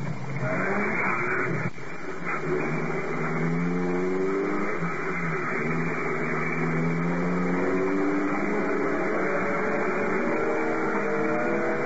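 A car engine roars as the vehicle speeds toward a roadblock, a loud steady drone with a brief sharp thump near the start.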